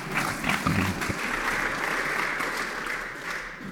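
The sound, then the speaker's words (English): Studio audience applause welcoming a guest onto a show: a steady, even patter of many hands clapping, holding at a constant level for a few seconds before thinning slightly at the end. “Yeah, please give a big hand to Fabiola. Welcome to the show.”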